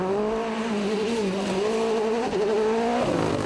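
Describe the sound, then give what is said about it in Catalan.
A rally car races at the Rally Catalunya, its engine giving a loud, strained whine that wavers in pitch throughout, with a brief dip partway through and a sharp shift in tone near the end. “Avui ha arrencat el Rally Catalunya que es disputarà aquest cap de setmana per les nostres comarques.”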